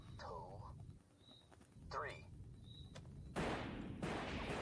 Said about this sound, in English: He's shooting in space.